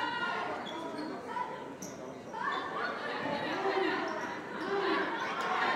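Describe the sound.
A basketball is dribbled up the court during a Boston high school semifinal game between O'Bryant and New Mission, the repeated bounces fairly faint under a man's talk and background chatter.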